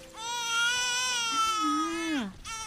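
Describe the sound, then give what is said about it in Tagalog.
A baby cries alone in one long, high wailing note that wavers in pitch, drops away, then starts again briefly at the end. “nadatnan ko si Baby na umiiyak. Walang kasama.”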